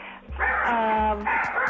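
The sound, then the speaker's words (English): A dog giving two drawn-out, whining barks, the first longer than the second, each with a tonal, yelping quality. “Oh, let the dog out.”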